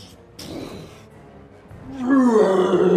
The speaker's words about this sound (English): As he roars at you, you get hit with steam and sulfur and rot and death, and it begins to approach you.